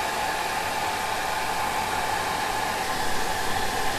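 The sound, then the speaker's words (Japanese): A hair dryer drying hair blows a constant, loud, airy whoosh with a faint steady whine, running unbroken the whole time. “美容師さん適当に乾かしてるようで考えてるんだからすごいよね。”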